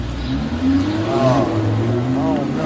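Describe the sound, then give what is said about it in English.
A moving Lamborghini's engine drones and revs with a steady low, rough tone, with loud voices rising over it. “What we are attempting to do is leap over a moving Lamborghini.”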